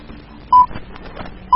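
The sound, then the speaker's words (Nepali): Time-check beeps on a community FM radio station: two short, identical mid-pitched tones about a second apart, each standing clearly above low background noise. “सामुदायिक radio जलजला FM 96.4 megahertz जलजला time check”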